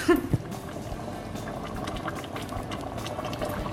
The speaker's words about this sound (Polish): ile ta nasza zupka powinna się teraz gotować na tym ogniu? Jakieś 20 minut i powinniśmy mieć już gotowe.